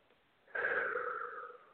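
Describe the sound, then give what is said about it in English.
A single deep breath, drawn in and let out slowly during a guided full moon meditation and visualization. A soft, airy rush starts after a brief quiet and holds steadily to the end, with no talking. “Deep breath in and deep breath out.”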